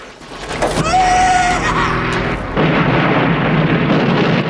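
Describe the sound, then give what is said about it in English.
Heavy rumbling blast of a helicopter crashing and exploding into a fireball in a film scene, a loud, sustained roar that surges again partway through, with no quiet gaps. “The helicopter explodes in a vast fireball.”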